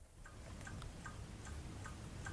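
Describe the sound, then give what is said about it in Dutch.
A clock ticks steadily in near silence, its sharp, light clicks evenly spaced over a faint low hum, with no voices. “Ja, we horen een klok. Ja. En stilte. En stilte vooral.”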